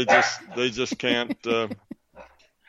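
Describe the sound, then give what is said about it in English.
A small dog barks after spotting deer in a yard: a few loud, harmonic barks in quick succession, followed by a couple of fainter, shorter yips. “No, that was one of my little doggies. I have deer that wander around in my yard, and a doggie behind me has evidently spotted one”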